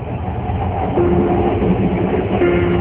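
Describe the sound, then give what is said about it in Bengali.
Steady rumble of a moving passenger train, heard from inside a nearly empty carriage: a continuous low clatter and drone that holds at an even loudness throughout, with no talking. “Ticket নিয়ে 9:45 ট্রেনে উঠল ওরা। সাদাতের বগিটা প্রায় খালি।”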